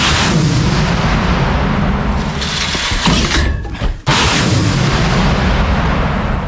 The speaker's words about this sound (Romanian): Primesc ordin de la armată să se mute într-o altă poziție mai aproape de linia frontului și să tragă din nou.